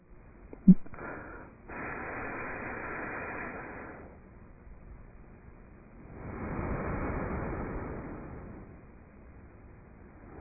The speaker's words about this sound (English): Then, use same finger, block right nostril, exhale.